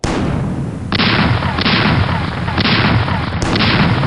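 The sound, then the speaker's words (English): A ship's cannons fire a broadside: several heavy booming blasts break through a loud, continuous roar of gunfire, each blast adding a fresh burst of sharp, bright noise. “Give them a broadside! Open fire! And fire at will!”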